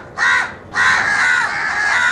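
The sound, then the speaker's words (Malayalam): A crow caws harshly twice. A short, rasping call comes first, and after a brief gap a longer, drawn-out caw follows, loud and clear against quiet surroundings. “ഒരു കാക്കയും ഭക്ഷണം കണ്ടാൽ ഒറ്റയ്ക്ക് കഴിക്കുകയില്ല, തൻ്റെ സഹജീവികളെ കൂടി വിളിക്കും.”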